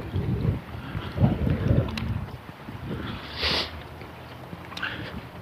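Harsh wind buffets the microphone outdoors on a mild 50-degree day, coming as a few low, rumbling gusts that swell and fade, with one brief hissing rush partway through.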